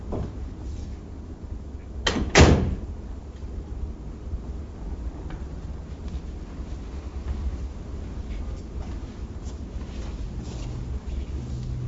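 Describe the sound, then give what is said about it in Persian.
A door being shut after someone comes inside: a single short knock with a brief rattle, standing out from a constant low background hum, with no voices. “درم ببند.”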